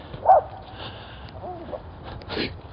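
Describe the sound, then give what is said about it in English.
A small white puppy barks in a few short, high yips, one sharper bark followed by fainter ones, fairly quiet overall. “little white puppy is fighting for the right to bark at us.”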